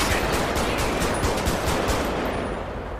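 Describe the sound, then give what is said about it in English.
Rapid gunfire from a police video game: a dense, continuous burst of many sharp shots in quick succession, loud and steady throughout, with no talk. “Shots fired. One subject hit. I'm hit as well.”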